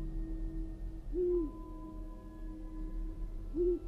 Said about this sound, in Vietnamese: một con cú mèo ở trong rừng vỗ cánh phành phạch, thẳng thốt bay lên rồi rúc lên mấy tiếng.